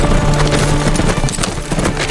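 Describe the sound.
Hooves of six horses carrying mounted lancers riding up to a front door, a dense, loud, continuous clatter of clip-clop strikes filling the whole clip.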